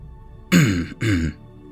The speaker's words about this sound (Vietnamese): Lão đạo sĩ ở bên cạnh vội vàng ho khan một tiếng mà nói.